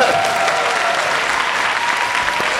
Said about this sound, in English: One more round of applause for the video team.